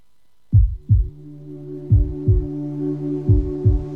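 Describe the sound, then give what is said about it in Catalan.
Heartbeat: three double beats, each a pair of deep, thudding pulses, separated by short pauses over a steady low hum. “Sents el cor? Batega fort, oi?”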